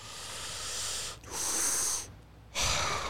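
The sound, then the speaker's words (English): A big, deep breath drawn in: loud, airy rushes of breath in three bursts separated by short pauses, with no talking. “You know what we need? A big inhale.”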